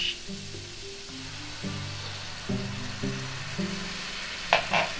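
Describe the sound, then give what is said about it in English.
Shrimp sizzle in a pan after wine is added: a steady, faint frying hiss runs throughout over a low tonal background, with a brief louder crackle near the end. “And now, it's a time that we put a little wine. And the wine, when you put the wine, you gotta make it.”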